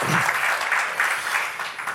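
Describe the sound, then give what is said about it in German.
Audience applause at the start of a panel discussion: a dense, steady patter of many hands clapping, moderately loud and continuous throughout. “Ja, gerne noch einmal einen Applaus zum Start.”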